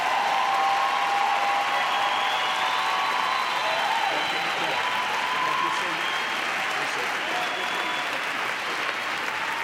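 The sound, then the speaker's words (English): Sustained applause from a church audience standing to welcome a visiting bishop to the pulpit: loud, dense, steady clapping that continues without a break for nearly ten seconds. “And I want us all, Bazalana, to stand as we welcome a prophet in the name of a prophet, Bishop Bernard Nwaka. Come on, Bazalana, give him a mighty hand.”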